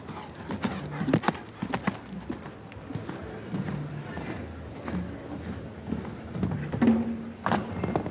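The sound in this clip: Hooves of a show jumping horse on a course thud in a steady, rhythmic clip-clop, moderately loud and continuous throughout.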